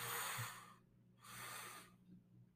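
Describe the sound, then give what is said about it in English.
Two deep inhales drawn through the nose during a breathwork practice. Each breath is a soft, airy rush lasting under a second, with a brief pause between them. The breaths are faint and heard alone, with no talk. “One last time, two deep inhales through your nose.”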